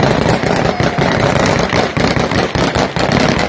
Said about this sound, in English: And of course, you can hear the gunshots, so things are going beautifully right outside the airport.